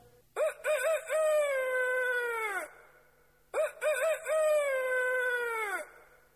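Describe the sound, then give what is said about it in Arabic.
A rooster crows twice in the morning, each crow opening with a few choppy syllables before a long, held, slightly falling note, with a short quiet gap between the two. “الديك في الصباح يصيح في البطاح يقول في انشراح حيا على الفلاح”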